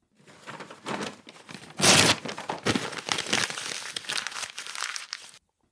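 Wrapping paper crinkles and rustles as a gift is unwrapped, a busy, uneven stretch of crumpling and tearing with one sharp, loud burst early on, then steady rustling until it stops abruptly.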